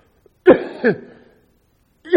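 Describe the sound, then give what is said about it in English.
Coughing at an evening service: a few short, rough bursts with a gap before the last one, moderately loud, with no talk over them. “excuse my cough.”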